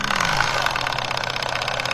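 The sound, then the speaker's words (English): A miniature live steam engine, its tiny boiler fired by camping gas canisters, runs with a fast, steady mechanical chuffing and ticking beat that continues evenly throughout. “It's actually engines that are powered by miniature boilers, fired by camping gas canisters.”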